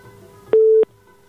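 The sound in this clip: A telephone tone sounds as a call connects on a radio phone-in line. It is a single steady, mid-pitched beep lasting about a third of a second, loud and alone over a faint background hum.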